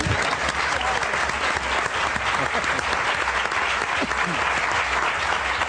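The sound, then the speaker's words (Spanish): Loud audience applause fills the full six seconds, a dense and steady clatter of clapping hands with no talk over it. “Y ahora ya tiene un aplauso conjunto”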